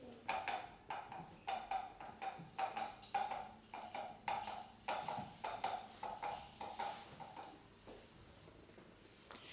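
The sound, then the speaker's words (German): Horse hoofbeats as a rider gallops swiftly away by night: a steady, rhythmic clip-clop of many quick strikes, fairly faint and continuing evenly throughout. “Dann steckte er sein Schwert zurück, schwang sich auf sein Pferd und ritt schnell davon.”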